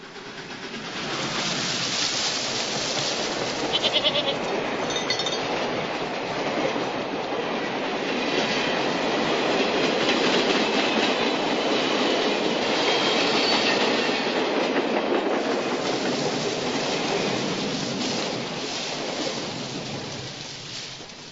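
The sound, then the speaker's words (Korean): A train rolls past along rusty railway tracks strewn with fallen leaves. A loud, steady rumbling roar with rattling swells in at the start and fades at the end, with no voices. “철로변에 깔린 낙엽을 흩날리면서 지나가는 기차 소리를요.”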